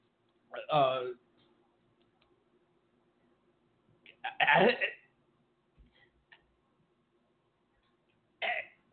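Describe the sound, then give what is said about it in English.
Someone coughs and clears their throat harshly, as if choking on a hairball. The sound comes in three separate rough bursts spaced a few seconds apart, with near silence and faint ticks between them. “are you choking? I think you can't breathe. Hairball. Oh my God.”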